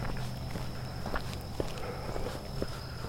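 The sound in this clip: A person jogs past, with a few soft, irregular footfalls over a faint steady hum. No one talks.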